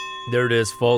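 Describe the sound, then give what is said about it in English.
A boxing ring bell signalling the start of round 14 gives a sustained metallic ringing tone that holds steady while a man speaks over it. “That is the sound of the bell for round number 14.”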